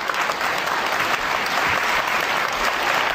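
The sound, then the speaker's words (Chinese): Dense, steady applause from an audience at a stage comedy performance, welcoming a performer on stage. It holds at an even, loud level for about three seconds with no talking. “掌声鼓励。掌声啦！掌声鼓励！”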